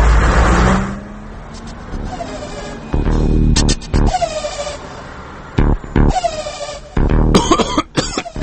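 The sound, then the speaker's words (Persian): A battered, run-down car passes by in city traffic. A loud, rough engine rumble surges and drops among bursts of traffic noise and brief horn-like tones. “الان یه ماشینی که از فرط داغونی به جای دود گاز خردل تولید میکرد از اینجا رد شد”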